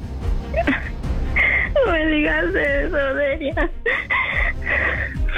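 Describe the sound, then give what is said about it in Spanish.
A person cries, letting out high, wavering, wailing sobs for a couple of seconds, framed by shorter whimpering sounds before and after. “Baby, baby, no llores, baby.”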